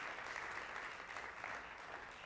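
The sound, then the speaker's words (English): A church audience gives a clap offering during a service, producing soft, continuous applause at an even level throughout. “Let's give the Lord a good clap offering.”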